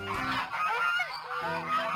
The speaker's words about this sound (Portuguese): Dirigiam-se para lá velhos gansos muito bem engravatados, de plumagem imponente e todos muito barulhentos